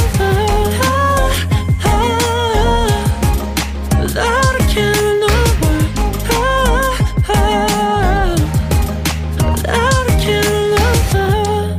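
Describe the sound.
A song plays on its own, a loud, continuous full-band arrangement with a steady percussive beat under layered melodic lines that carry through without a pause.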